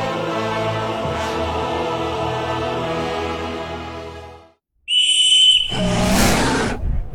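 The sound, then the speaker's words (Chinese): A whistle blown to summon a griffin in a fantasy tale: after a steady low droning tone and a short silence, one bright, high, sustained whistle note sounds, then a loud, harsh creature roar or screech follows. “卡德加吹响了召唤狮鹫的哨子”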